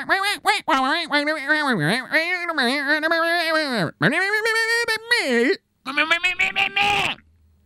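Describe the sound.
Duck quacking voiced by a person, a long run of nasal, wavering squawks with swooping pitch, broken by short gaps before stopping near the end.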